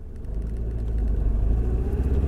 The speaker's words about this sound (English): so I'm driving up to the park now